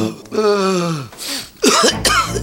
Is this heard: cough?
yes